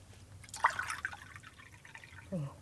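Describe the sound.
Water poured into a drinking vessel, a faint trickle with a few small, hollow drips and gurgles, followed by a short, brighter splash near the end.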